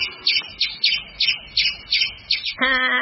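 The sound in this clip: Squirrel call from a tree-dwelling squirrel: a rapid, regular series of about eight sharp, high-pitched chirps in under three seconds, loud and clear with no talk.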